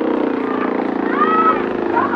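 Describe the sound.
Motorboat heading in toward a small island, its engine a steady, pulsing drone at moderate loudness that holds without a break.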